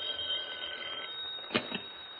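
Faint telephone bell ringing in a continuous, thin, high trill, broken near the end by two short, sharper clicks.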